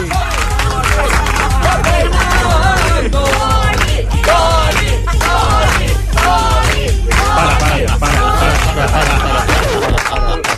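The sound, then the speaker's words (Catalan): A studio audience cheers and shouts loudly and continuously, with overlapping voices rising in repeated bursts of whooping throughout. “Però tens el públic aquí. Això sembla Palau Sant Jordi.”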